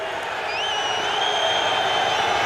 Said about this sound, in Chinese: 尤其德国球迷刚才在嘘。